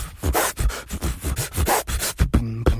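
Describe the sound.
A human beatboxer vocally imitates turntable scratching with many short, gritty, rhythmic scratch strokes in quick succession, ending in a brief buzzing, pitched tone.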